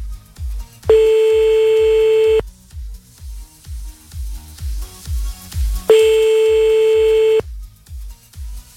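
A telephone ringback tone sounds on an outgoing call that goes unanswered. Two long, steady electronic rings are separated by a pause, and a rhythmic music beat thumps underneath throughout.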